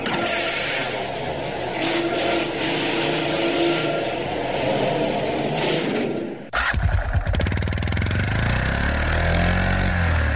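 Engine of an investigation pod vehicle driving across dusty, cratered ground on the moon: a steady, buzzing motor drone that abruptly shifts to a deeper, rougher, throbbing engine note for the final few seconds.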